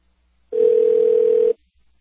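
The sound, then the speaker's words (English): Ringback tone of an unanswered call to a government department: a single loud, steady electronic tone lasting about a second, heard alone with silence on either side. “Now the State Department's not answering.”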